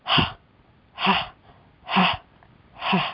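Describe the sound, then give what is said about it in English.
Four short, breathy exhalation bursts from a breathing exercise, each a forceful voiced 'ha'-like puff, evenly spaced about a second apart with quiet gaps between. “And now exhale out in short, breathy bursts.”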